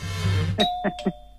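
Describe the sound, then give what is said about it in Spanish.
A doorbell rings with a few bright chime tones in quick succession. A low hum comes before the chimes, and a faint ringing tail fades after them. “¿Amerita atención, un toque de timbre o no?”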